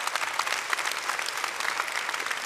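An audience applauds in a dense, steady patter of many hands clapping at an even level throughout, with no voices standing out.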